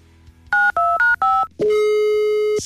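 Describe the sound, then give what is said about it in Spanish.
DTMF tones from a telephone number being dialed: four short, loud two-tone beeps in quick succession, then one long, steady single tone lasting about a second. “A ver, vamos a marcar otra vez.”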